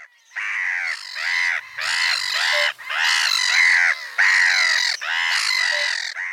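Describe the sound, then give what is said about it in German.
A black-headed gull colony calls loudly: dense, harsh, overlapping squawking cries arrive in five long bursts separated by brief gaps, and no voices are heard. “Also ich weiß nicht, ob ihr Lachmöwen, Kolonien sind unglaublich laut. Ich habe auch einen Ton mitgebracht, ich spiele den mal ab.”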